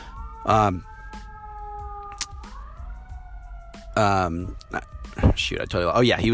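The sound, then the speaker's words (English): Sirens wail in the background, long sustained tones gliding slowly in pitch between bursts of intermittent speech. “Excuse the sirens in the background.”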